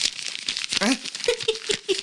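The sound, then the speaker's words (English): Brown paper bags crinkle around 40-ounce beer bottles, a rough papery rustle of many quick crackles, with people's voices heard over it. “That sound is the brown paper bags around our 40s.”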